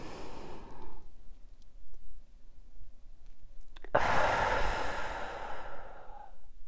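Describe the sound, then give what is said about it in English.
A deep breath is drawn in through the nose, soft and steady. After a pause comes a long, louder breathy exhale through the mouth that trails off. “Just take a deep breath in.”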